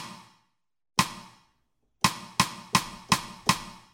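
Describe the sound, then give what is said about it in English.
Side stick on a snare drum, the stick slapped down so it strikes the rim: seven sharp, dry clicks, one at the start, one after a pause, then five in quick, even succession, each decaying fast into silence. “Now I can slap the stick down on the drum, and what will happen is that the stick will hit the other edge of the rim, giving me that sound.”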